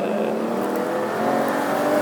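A race car engine drones loudly and steadily as the car accelerates on a transitional lap, with no gaps.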